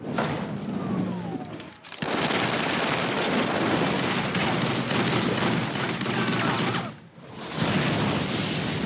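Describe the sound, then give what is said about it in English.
Loud, dense gunfire, like rapid machine-gun bursts, crackling almost without a break. There are two brief lulls, one near the start and one toward the end. “Hey, got a permit for those guns?”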